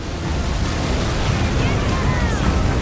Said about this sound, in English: Anne-Marie glides down the mountain of water, glancing at the curl as it crashes beside her in turbulent billows.